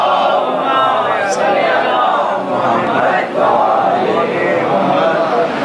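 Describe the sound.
A crowd loudly reciting salawat together during a religious sermon, a dense, continuous wash of many voices that holds steady throughout with only a brief dip near the middle.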